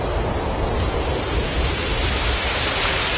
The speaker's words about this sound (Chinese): 这是风声